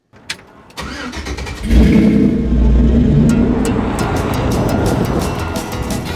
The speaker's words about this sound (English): Route 66 begs to be driven. You don't have to do it in a 56 pickup, but we borrowed one anyway, just for the fun of it.